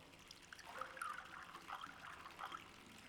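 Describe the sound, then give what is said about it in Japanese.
Warm sake trickles into a small ochoko cup during a bath, a soft, faint liquid dribble rising in a few gentle bursts of pouring. “さあさ、せっかく温めたんだし、あったかいうちに飲もう。はい、おチョコどうぞ。注いであげるね。”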